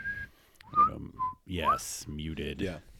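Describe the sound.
Person whistling short, bright notes of a tune, a few brief sliding pitches broken up by voiced vocal sounds and breathy noise.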